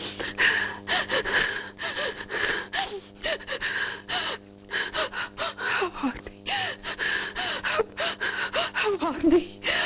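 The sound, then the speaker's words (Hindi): A woman sobbing and crying, with many ragged gasping breaths and short wavering whimpers and moans in an irregular, halting rhythm, heard alone without any talk. “क्रोध आंसुओं में ढल गया और ठीक उसी तरह वह सुबक सुबक कर रोने लगी जब माँ उस पर पहरे पिटाती थी।”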